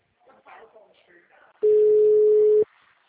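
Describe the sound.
A steady telephone tone, heard while calling, sounds as one flat, even, mid-pitched beep lasting about a second. It follows a brief stretch of talk and stops cleanly.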